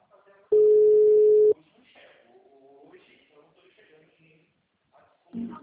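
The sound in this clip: A steady telephone ringing tone sounds once for about a second during a call, a loud, even hum that is followed by voices talking.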